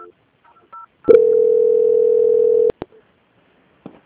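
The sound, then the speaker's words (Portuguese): A telephone call-transfer tone on a bank's customer line: one steady mid-pitched tone held for about a second and a half, then two short clicks, with brief faint sounds before and after. “aguarde em linha que eu vou transferir o contato para o controle de qualidade que dará continuidade à sua contratação.”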